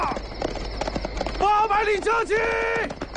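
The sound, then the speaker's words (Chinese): Horse hoofbeats in a quick, clattering run for about a second, then a loud voice takes over. “听马蹄声， 撤撤！”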